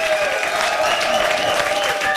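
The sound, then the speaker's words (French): Audience applause after a sung improvisation, a dense, steady wash of clapping that holds at an even level from start to finish. “Merci, on peut vous applaudir bravo. Encore une fois. Bravo.”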